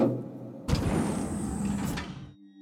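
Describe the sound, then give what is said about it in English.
Elevator doors forced open with a sustained grinding, scraping slide lasting over a second, loud and steady, then cutting off into a low hum. “But when she forces open the elevator doors that lead onto the floor,”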